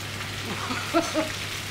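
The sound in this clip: Schnitzel frying in a pan, a batch of twenty for a party service: a steady, even sizzling hiss with a low hum underneath.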